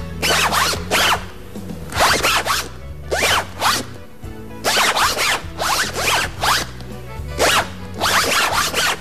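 A zipper played as a musical instrument, its slider drawn back and forth to perform a tune. Many quick rasping strokes fall in rhythmic grouped bursts, loud and steady across the whole passage.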